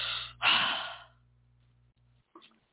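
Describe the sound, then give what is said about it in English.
A deep breath: a short intake, then one long, strong rush of air that fades into quiet over a low, steady hum. A faint, brief sound comes near the end. “Need some oxygenation after that, so you got to take a deep breath, you know.”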